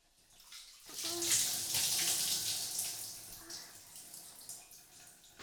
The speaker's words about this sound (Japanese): では頭から洗いましょう。髪を濡らしますので目を閉じていてくださいね。